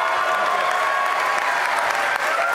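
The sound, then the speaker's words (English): Applause for Governor Branstad at a Republican campaign event: dense, steady clapping from a crowd that holds at an even level for the whole stretch. “Please give me a warm round of welcome to Governor Branstad.”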